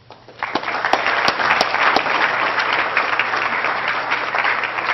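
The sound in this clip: Audience applause at LSE welcoming a lecturer: many hands clapping in a dense, sustained wash that swells in after a quiet start and then holds steady.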